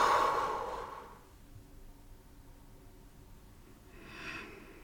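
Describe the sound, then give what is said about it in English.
A person exhales deeply out of the mouth during a guided relaxation: a long, breathy rush of air fades over about a second. A softer, shorter breath follows near the end. “Take one more deep inhale through your nose. Exhale out of your mouth.”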